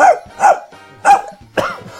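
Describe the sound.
A veteran voice actor imitating a dog barking, giving four loud, gruff, voiced barks with a rough, throaty timbre, spaced unevenly with short gaps between them.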